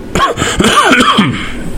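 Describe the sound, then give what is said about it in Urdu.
Coughing into a microphone after a sip of water goes down the wrong way: a rapid run of harsh, voiced coughs and sputters, loud and continuous. “اتنی کھانسی mic پہ آ کے کھانسی کیوں لگتی ہے تم؟ میں پانی پی رہا تھا, دھچکا لگ گیا.”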